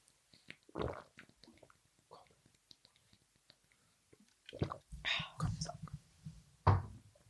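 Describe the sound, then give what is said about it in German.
Someone drinking a beverage, with quiet moments and faint clicks giving way to a run of close gulping and swallowing sounds in the second half. “Ja, warte, ich möchte jetzt mal, dass du nichts sagst, weil ich trinke jetzt.”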